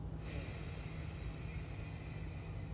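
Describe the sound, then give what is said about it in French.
A deep inhalation is drawn during a breathing exercise, making a steady, loud, airy rush of breath that holds evenly throughout, with no talk. “Nous faisons une deuxième fois, soufflez. Inspirez.”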